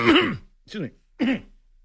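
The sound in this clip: Someone clears their throat as if something is caught in it, giving three short, rough voiced bursts separated by brief pauses, the first slightly longer and stronger.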